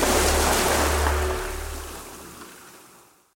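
Sea surf washing ashore, a dense, steady roar of breaking waves that starts loud and then gradually fades away to silence by the end, with no voices.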